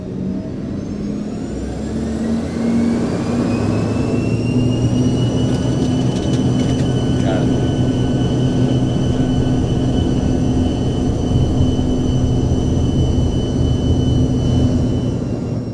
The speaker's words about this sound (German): und dann hat Kapitän Galdubine auch schon die beiden Triebwerke, die am Heck angebracht sind, angelassen und wir sind losgerollt. Start heute auf der Piste 2-3.